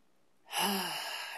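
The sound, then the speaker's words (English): A single deep breath drawn in during a guided meditation: a long, airy inhale that starts suddenly and holds steady for nearly a second, heard alone without talk. “take one big deep breath in”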